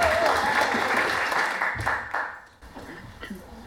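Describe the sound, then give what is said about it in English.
Audience applause welcoming a poet at a spoken-word reading: a full, loud wash of clapping that holds at first, then gradually thins and fades, leaving only scattered faint sounds at the end. “Could you give Emily a huge welcome?”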